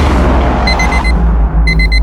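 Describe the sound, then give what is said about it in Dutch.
An alarm sound effect opening a radio show: two short bursts of rapid, high electronic beeps cut through a loud, low rumbling boom. “Ja, dat is hem, het Ben Harder Show, alarm.”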